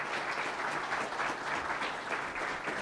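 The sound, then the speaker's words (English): Applause from a church audience welcoming a couple: dense, continuous clapping that holds at an even level throughout, with no single voice standing out. “Will you do me a favor and give them a great lighthouse welcome, Doug and Cindy Tankersley?”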